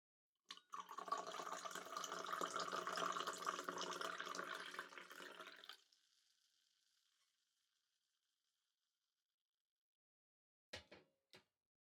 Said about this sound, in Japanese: こうやって高い位置からカップへ向かってコーヒーとミルクを注ぐのは、正直言って演出の意味合いが強いのですけれど